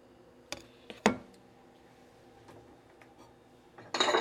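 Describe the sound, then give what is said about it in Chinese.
Bowl set down aside in a kitchen while chopping salted egg yolk: two sharp clinking knocks, then faint ticks, followed by a louder noisy burst at the end. “那就一样找个碗。找个地方放在旁边。”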